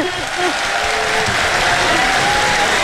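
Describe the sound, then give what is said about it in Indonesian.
A whole stadium crowd applauds, producing dense, steady clapping that stays loud throughout, with a few voices over it near the start. “Ya Allah, ya Tuhanku, satu stadium beri tepukan padanya.”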